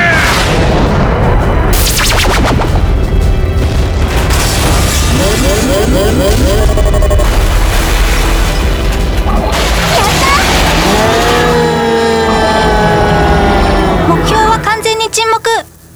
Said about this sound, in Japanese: エネルギー充填完了。 撃て。